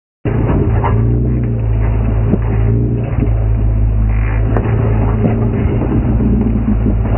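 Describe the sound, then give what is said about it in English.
A Jeep engine rumbles low and steady as the vehicle is driven over obstacles, starting abruptly, with a few scattered knocks and clunks over the continuous drone. “What you're hearing is a Jeep being driven over obstacles.”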